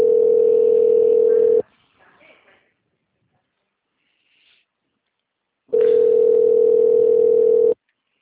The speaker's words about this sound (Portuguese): tá chamando e ela não atende essa